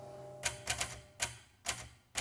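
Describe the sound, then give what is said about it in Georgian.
Typewriter keys strike six times in an uneven rhythm, each a crisp, sharp clack standing out clearly over a faint background hum. “საბეჭდი მანქანაც კი.”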